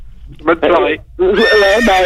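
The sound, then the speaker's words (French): Loud, tremulous whinnying from a horse: a few wavering neighs, a short burst followed by a longer call, then a sustained, shaky neigh after a brief pause. “c'est bizarre. Il y a même un cheval.”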